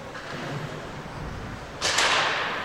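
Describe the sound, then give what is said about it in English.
A hockey puck shot from the near point cracks hard as it is deflected during a hockey game. A single sharp impact cuts through steady crowd noise, and the crowd swells just after. “Plotke's shot from the near point, that was deflected, did not get through. What an impact on that, though. You really heard the impact of that shot.”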